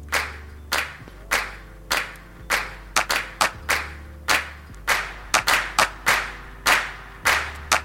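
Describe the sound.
Many sharp hand-clap samples layered in a music production, struck in an uneven, syncopated pattern over a low sustained bass tone, some hits doubled close together and several with a reverb tail.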